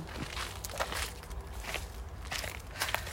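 Footsteps crunch steadily over crushed sandstone laid around a house, a run of gritty, crackling steps at moderate loudness with no pauses.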